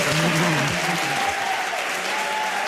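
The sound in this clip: A live studio audience claps and makes noise on request, with thick steady applause and a few shouting, cheering voices rising through it early on.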